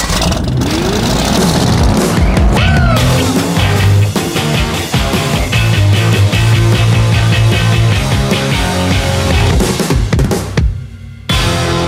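A car engine drives and revs continuously, loud and dense, its tone rising and falling before it drops away briefly near the end.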